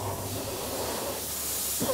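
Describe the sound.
Compressed air blows dust out of the hot engine of a combine harvester, making a steady, broad, loud hiss that runs throughout.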